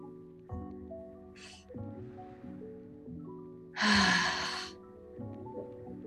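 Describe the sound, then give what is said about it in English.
A breath cycle during a guided breathing exercise, with a loud, airy exhale through the mouth standing out briefly over soft, sustained background music. “So inhale through your nose, filling up your belly and your chest through your nose, and then exhaling through your mouth.”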